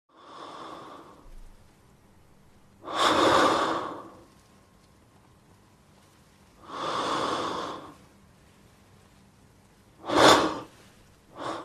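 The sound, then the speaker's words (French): Heavy, laboured breathing of a gravely ill man shortly before his death, from a film: a few slow, drawn-out breaths that are loud and rasping, spaced well apart, with one shorter, sharper gasp near the end. “On écoute maintenant un extrait du film montrant ses respirations lourdes, fragiles et douloureuses”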